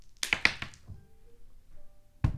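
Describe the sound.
Dice rolled during a tabletop role-playing game, d12 and d20, a quick cluster of sharp clacks and taps early on, then quiet, then one more solid thud at the end.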